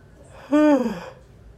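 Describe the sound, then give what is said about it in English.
A person yawns once, mid-sentence: a loud, voiced, breathy yawn that lasts about half a second, then trails off into quiet. “excuse me, everybody, I'm yawning.”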